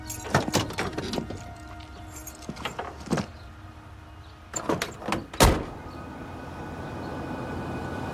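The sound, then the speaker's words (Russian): Car door sounds as a man climbs into a police service car: a scattered series of clicks and knocks, then one heavy slam, followed by a steady low background. “Мистер Маки выходит из дома, надевает солнцезащитные очки и садится в служебную полицейскую машину.”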